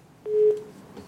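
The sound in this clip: A telephone line gives a single short, steady mid-pitched tone while a call connects, lasting about a third of a second above a faint background hiss.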